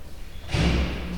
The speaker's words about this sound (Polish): Jestem przed łazienką, otwieram drzwi.